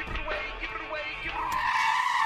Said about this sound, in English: This shouldn't take long if I drive recklessly.